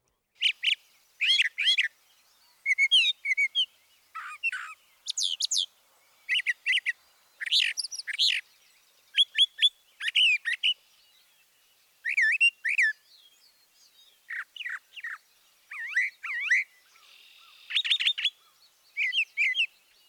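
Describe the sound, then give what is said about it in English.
Brown thrasher song: a long run of brisk, varied, high-pitched phrases, each loud and emphatic, separated by brief pauses, with nothing else heard. “Listen again to the emphatically delivered song of the brown thrasher.”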